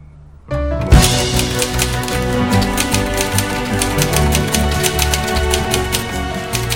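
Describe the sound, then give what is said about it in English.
A typewriter being typed on, its keys striking in a rapid, continuous run of sharp clacks over steady background tones. “He readies his hands to type, but stares blankly forward.”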